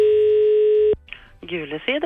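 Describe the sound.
A telephone call to a directory enquiry service is dialled: a steady, loud dial tone holds for about a second and cuts off abruptly. Brief faint tones follow, then a voice speaks.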